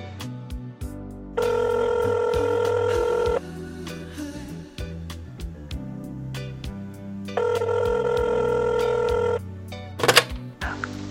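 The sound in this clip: Telephone ringing while an international call connects: two long, steady ringback tones, each about two seconds, separated by a gap, with other low, busy background sound running throughout.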